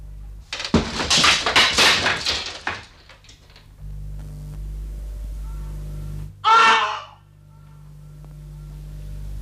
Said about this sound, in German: Mach auf! Glaub nicht, dass die Mauern vor der Schande schützen! Mach auf, sonst schlage ich die Tür ein!